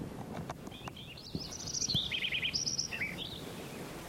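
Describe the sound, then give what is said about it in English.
Sparrow song, a brief run of high chirps and quick trills, faint over a quiet background. “Like it's sparrow number 5 again.”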